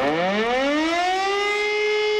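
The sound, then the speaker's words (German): A civil defense siren sounds the all-clear during a nationwide warning-day test in Remscheid: a loud, continuous wail that rises steadily in pitch across the whole clip. “Um Punkt 11 Uhr geben die Sirenen bundesweit erstmal Entwarnung.”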